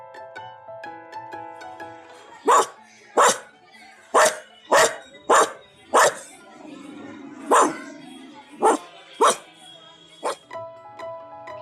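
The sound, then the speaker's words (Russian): A dog barks in a series of about ten sharp, loud barks spaced unevenly over a steady musical backing, with the music continuing alone before and after. “Собачка говорит гав-гав.”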